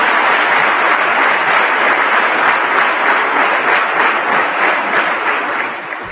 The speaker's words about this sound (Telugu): మీరు కేవలం క్లాప్స్ వేస్తే నాకు ఆనందం కాదు పనులు చేస్తే నాకు ఆనందం claps will never make Swamy happy